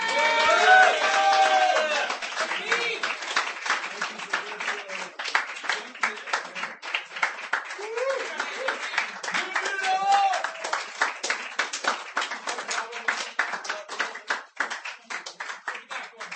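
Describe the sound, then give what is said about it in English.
Audience applause fills a poetry reading: dense, steady clapping from many hands sustained for about sixteen seconds, loud throughout with a slight easing toward the end, and a few voices briefly audible within the clapping. “Do it. Applaud.”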